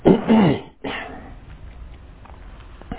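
A man clears his throat with two rough, throaty bursts, the first longer and the second shorter after a brief gap, then only a faint background hiss remains.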